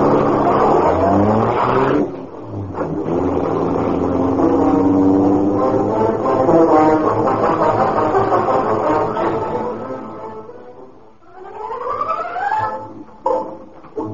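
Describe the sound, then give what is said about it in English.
A big, gleaming black car's engine roars to life and speeds away: a loud, sustained engine roar with shifting pitch that dips briefly, then returns with a rising whine. “The great car roared into life.”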